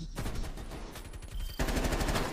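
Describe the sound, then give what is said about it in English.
Rapid automatic gunfire in a first-person shooter video game, a loud, dense burst of many shots in quick succession that dips briefly and then resumes even harder. “Look at this. I shot him so many times with a freaking shot.”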